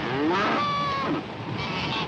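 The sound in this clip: Farm animals towed through the water behind a raft call out with a drawn-out, wavering moo-like bellow. Its harmonics rise and fall over a continuous rushing noise.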